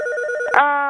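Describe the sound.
A landline business telephone rings with a bright electronic warble, then a short click and a steadier ringing tone. It is loud and stands alone with no talk.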